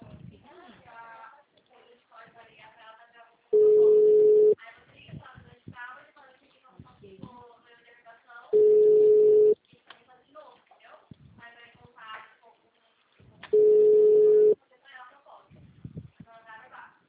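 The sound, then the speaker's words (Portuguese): Ringback tone of a telephone line while calling a company's HR department: three long, steady, mid-pitched beeps spaced about five seconds apart, with people talking in between. “Não, tô tentando ligar na RH.”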